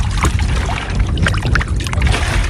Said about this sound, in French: Pendant qu'il se stabilise, je vais rincer tout mon matériel avec l'eau du plan d'eau.